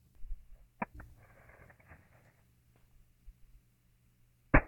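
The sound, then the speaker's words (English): A single sharp pop as a 3D printed all-plastic gun fires 3D printed ammunition loaded with gunpowder into the ground, a lone loud crack near the end after faint handling clicks. “this is a 3D printed all plastic gun with 3D printed ammunition. Now I'm added gunpowder, but I mean, you can even make that if you know what you're doing. And watch.”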